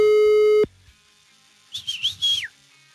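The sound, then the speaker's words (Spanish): A phone call's ringing tone sounds as one steady electronic tone that cuts off after about half a second. A short, faint warbling whistle follows after a pause. “Le estamos marcando a Alejandro Arturo y pues ya nos debió la llamada. Una segunda oportunidad, vámonos. Mi brother no nos contesta.”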